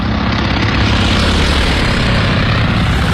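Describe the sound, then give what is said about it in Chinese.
Steady propeller drone of Japanese military aircraft flying back after attacking Midway, a loud, unbroken engine roar with no other sounds. “日军飞机在首次袭击中途岛后返航了，他们在寻找自己的航母。”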